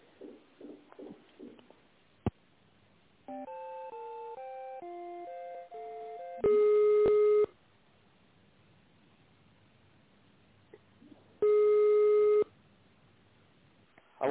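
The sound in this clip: Telephone line tones while a call is being connected: a few short beeps, then a stepped sequence of melodic tones, then two long steady tones separated by a stretch of faint line hiss.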